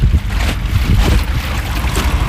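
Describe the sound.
A boat arrives at a school by water with a steady, loud, low droning rumble and rushing wind noise throughout. The sound is continuous, with no talk.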